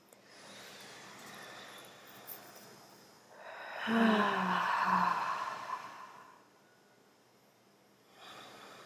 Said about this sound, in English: So, inhale.